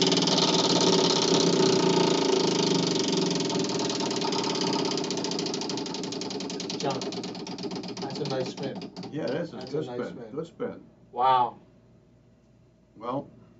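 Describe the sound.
A prize wheel being spun gives a dense, rattling whir that runs steadily, then thins out and fades as it slows. People start talking as the spin winds down.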